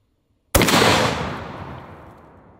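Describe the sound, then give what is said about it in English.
After a moment of silence, a .50 BMG RIP round is fired into a Ballistic Dummy Lab zombie bust. One sudden, very loud blast is followed by a long rumbling tail that fades away gradually. “I wanna see what happens when a Ballistic Dummy Lab zombie bust gets hit with a 50 BMG RIP round.”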